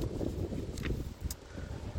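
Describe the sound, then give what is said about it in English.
Outdoor wind noise buffeting a microphone set close to a wall on a breezy day, a steady low rumble with uneven gusty swells and no clear voices. “It is getting a little breezy here. I've put the camera right up near a wall in the hope that I protect the sound from that sort of noise that you get when it's blowing.”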